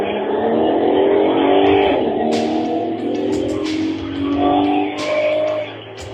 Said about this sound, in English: Yeah! Totally the company van. Drives my next destination.